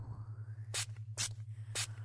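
Three short hissing bursts of spray mist, soft and quiet, spaced unevenly over a low, steady pulsing hum.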